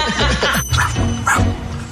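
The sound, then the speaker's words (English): A small dog gives a few short, high yips and barks, mixed with people talking over them. “Was he barking? I think he did a little ruff, ruff.”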